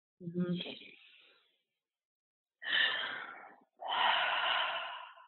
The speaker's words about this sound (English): let's take a deep breath together.